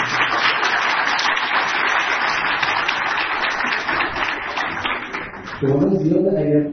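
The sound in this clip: Hands clapping in steady applause for several seconds, fairly loud and even, before a voice starts talking at the end.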